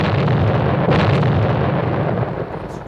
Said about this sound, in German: Als der Qualm der Explosion sich verzog von der Kulisse